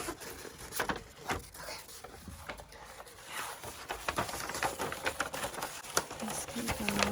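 Wrapping paper being folded around a gift, heard as soft, quiet crinkling and rustling with small taps and rubs as the sheet is creased.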